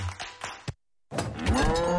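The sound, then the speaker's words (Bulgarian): A dairy cow lows in a long, loud moo after a brief silence, the call drawn out with a rich, buzzing tone. “Мамо, крава ли имаме в хладилника?”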